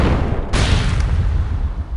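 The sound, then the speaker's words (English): A fireball spell from a fantasy guild-hall game erupts as a sudden loud blast that carries on into a sustained, rumbling roar over a constant noisy background. “All right, Rogers, you want to play that way? How about a fireball spell to the face?”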